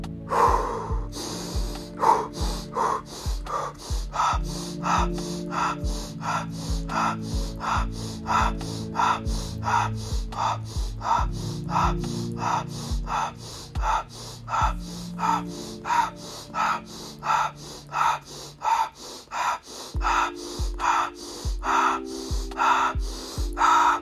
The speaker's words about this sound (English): Inhale. And here's your 30 breaths.